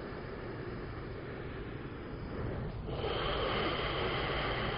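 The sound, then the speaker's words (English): Deep breathing during a guided yoga exercise: a steady, breathy rush of air that runs throughout and grows louder and fuller in the second half, with no talk. “So your breath does all the hard work. And then one more big breath here.”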